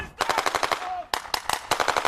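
Soldiers in winter camouflage fire their weapons during a military exercise in snowy northern Norway: many sharp, loud gunshots crack in rapid bursts, some overlapping, with brief gaps between volleys.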